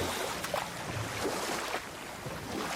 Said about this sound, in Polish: A to tylko łódką wypłyńmy.